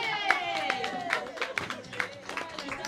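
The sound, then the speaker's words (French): An audience claps in a steady rhythmic beat, crisp hand claps recurring at regular intervals while voices sing or call out over the top. “On les applaudissez bien fort, s'il vous plaît, monsieur.”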